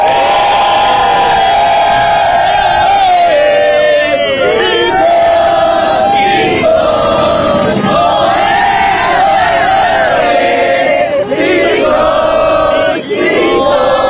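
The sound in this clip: A Costa Rican crowd cheers and chants together, a loud, continuous mass of voices with sustained sung tones rising and falling throughout.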